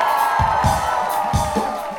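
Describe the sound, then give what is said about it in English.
An audience at a live show cheers and applauds a band from Morgantown, West Virginia. The steady roar of voices carries a few louder bursts of shouting throughout. “Please give a warm round of applause for the argument from Morgantown, West Virginia.”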